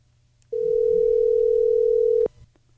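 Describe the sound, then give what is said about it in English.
Telephone dial tone as a call is dialed: one steady, unbroken tone lasting under two seconds, heard alone over a faint low hum and ending abruptly. “Let's dial Mr. Steve Brown of Alpine.”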